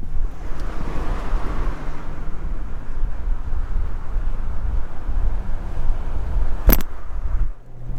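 Wind rushes past a camera held out of a car window, a loud, steady, low roar that fills the whole clip, with one brief sharp click near the end.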